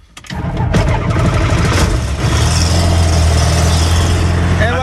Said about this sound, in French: on regarde qu'il n'y ait personne autour de la machine parce que l'hélice va se mettre à tourner. Attention, ouais, on y allez, va. Ça démarre.